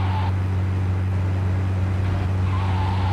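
A car is driven in a video game, its engine holding a loud, steady low drone, with brief higher tire squeals near the start and again toward the end.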